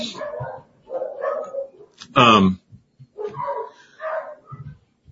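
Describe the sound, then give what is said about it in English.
Excited dogs barking upstairs: one loud, sharp bark cuts in between stretches of a person talking. “my dogs are going crazy up there. There must be somebody here.”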